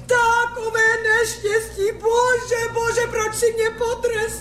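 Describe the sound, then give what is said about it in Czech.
A woman cries in a sustained, high wavering wail that bends up and down in pitch without pause, continuing steadily from start to end. “Proč pláčeš, dobrá ženo?”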